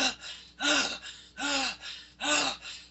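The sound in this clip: A voice imitates a horse's noisy in-breath: rough, voiced gasps that rise and fall in pitch, with three strong ones alternating with softer, shorter ones in an uneven rhythm.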